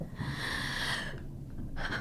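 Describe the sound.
A deep breath: a long, quiet, airy inhalation lasting about a second, then a brief pause and a shorter second breath.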